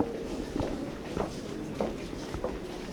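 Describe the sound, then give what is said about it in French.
Footsteps of people walking in offices: an evenly paced series of moderate steps, one roughly every 0.6 seconds, over a steady background hiss. “Donc là, on est dans les locaux. Les gens marchent.”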